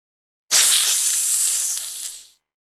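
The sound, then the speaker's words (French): A single snake hiss: one sustained, breathy, high-pitched rush of noise that starts abruptly, holds for nearly two seconds and then tapers off, heard on its own with no talk. “I can hear a snake.”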